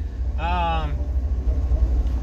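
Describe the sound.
A car's low engine and road rumble drones steadily throughout the drive, with a brief voice heard over it early on.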